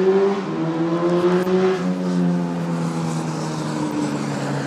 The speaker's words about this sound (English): As you can tell, people love racing up and down the street.